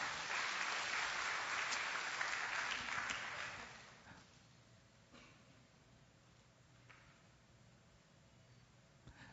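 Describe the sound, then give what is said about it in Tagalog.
A church audience applauds during a service, steady, dense clapping for about four seconds that then dies away to near silence. “Sige po, palakpakan natin ang Panginoon.”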